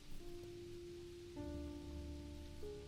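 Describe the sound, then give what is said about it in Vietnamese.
Heavy rain pours in a steady, dense hiss that runs unbroken through the whole clip, with sustained tonal notes droning underneath and shifting partway through. “Âm thanh yếu ớt của bà chìm nghỉm vào trong màn mưa ồn ả.”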